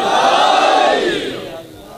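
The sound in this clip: A large crowd shouts a religious slogan in unison in answer to a preacher, a loud massed roar of voices that holds and then fades toward the end.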